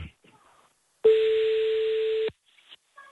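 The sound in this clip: Telephone ringback tone heard while calling a number back: a single steady, mid-pitched tone holds for just over a second, loud and alone, with faint scattered noises before and after it.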